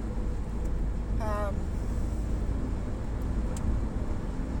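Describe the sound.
Car driving on a road as the speed limit rises, heard from inside as a steady low rumble of engine and tyre noise without clear peaks.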